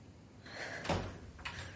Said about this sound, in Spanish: La puerta se cierra.